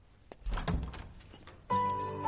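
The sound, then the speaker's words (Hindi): A door is opened with a few dull thunks and knocks, fairly quiet, followed by a steady, louder humming tone that holds to the end. “Dhoni ने दरवाजा खोला।”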